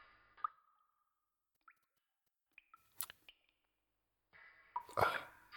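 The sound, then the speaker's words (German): Drops of water plop and splash sparsely and faintly against near silence, a handful of short wet drips followed by a louder splashy burst at the end. “Einige Tropfen Wasser spritzten mir ins Gesicht und weckten mich.”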